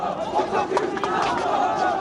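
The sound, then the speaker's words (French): Shouting, jeering crowd greets the Interior minister on his visit to a housing estate in Argenteuil. The dense, continuous roar of many voices stays loud and steady throughout. “Hier, le ministre de l'Intérieur s'est rendu dans une cité d'Argenteuil en guise de bienvenue, insultes et sifflets.”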